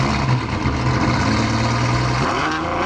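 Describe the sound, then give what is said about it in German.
A Ferrari sports car engine idling with a deep, throaty rumble, then revving up near the end with a rising pitch, loud and alone. “Normalerweise klingt ein Ferrari ja so.”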